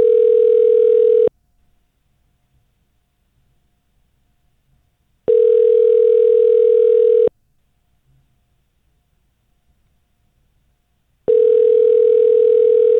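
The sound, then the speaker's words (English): A telephone rings on a call that is waiting to be answered: three long, loud, steady ringback tones spaced evenly with near-silence between them. No voices are heard. “All right, you just let it ring. Somebody better pick up.”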